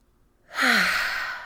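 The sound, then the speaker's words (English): A single long, audible exhale: a slow sighing breath out, taken as a calming, tension-releasing breath. It starts abruptly and trails off gradually, with a faint voiced tone that dips slightly in pitch. “just take a deep breath in and out. And just feel some of that tension and those nerves come out of your body with your exhale.”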